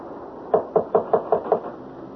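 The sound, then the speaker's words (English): Six evenly spaced knocks on a door, sharp and moderately loud, follow one another in a quick, steady rhythm and then stop, with no voices. “Now, shall I knock?”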